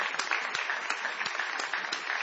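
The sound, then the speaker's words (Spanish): Fairly faint applause from a gathered group in a radio setting, with individual claps standing out as sharp, irregular hits over a thinner bed of clapping, holding steady for the brief clip. “Claudio Villarruel, sí, que para quien pedimos un gran aplauso”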